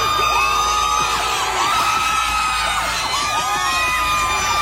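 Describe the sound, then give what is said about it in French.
Oklahoma City fans cheer the Thunder players arriving back at night from San Antonio after game 6, a loud, sustained roar of crowd noise full of whoops, yells and high shouts. “Il suffit d'écouter comment les joueurs du Thunder ont été accueillis en pleine nuit à leur retour de San Antonio après le match 6.”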